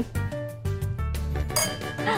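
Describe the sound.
Glasses clink together in a toast, with a few bright, sharp clinks over a busy, tonal background.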